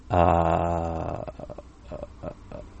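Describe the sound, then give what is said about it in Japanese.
Vocal fry produced by pushing breath through the throat: a steady voiced hum for about a second breaks down into choppy, crackling pulses as the vocal cords cut in and out intermittently. “って鳴らしていくと、こう、最後に喉がこうどういうんですかね、喉の声帯がこうピチピチピチピチピチってこう途切れ途切れに”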